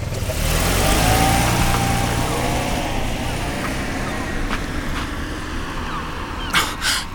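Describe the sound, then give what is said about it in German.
A taxi approaching, its engine giving a steady mid-pitched rumble with broad road noise that eases slightly as it goes on, followed by a few brief, sharper noises near the end. “Plötzlich hörten sie, wie sich ein Fahrzeug näherte. Es war ein Taxi.”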